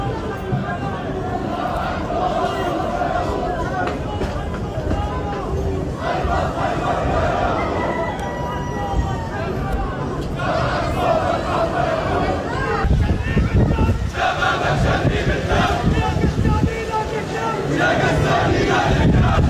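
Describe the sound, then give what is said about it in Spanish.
A large crowd chants at the funeral of a terrorist leader, calling for another October 7 attack. Massed voices shout in forceful, repeated chants over a dense roar of crowd noise, and the chanting continues for about twenty seconds. “tenemos imágenes de lo que pasó en este funeral de uno de los jefes de, bueno, de los terroristas, justamente, y ellos coreando, bueno, clamando por otro 7 de octubre.”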